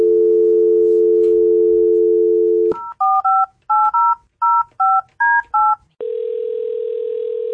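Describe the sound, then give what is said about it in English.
A phone's steady dial tone gives way to a quick string of touch-tone beeps as a number is keyed in for a radio giveaway call, then a constant higher tone sounds. No one talks. “let's dial that number.”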